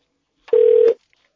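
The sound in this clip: A single ringback tone sounds on a telephone line as a call to a bank operator connects: one steady, mid-pitched buzzy beep lasting under half a second, heard alone and fairly loud.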